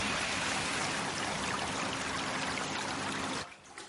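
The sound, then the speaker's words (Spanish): Water pumped from a pool runs through a hose and spills onto the ground in a steady, broad rushing splash that continues evenly, then abruptly drops away near the end. “enciende una bomba. Esta se hincha. El agua recorre la manguera y cae a la tierra.”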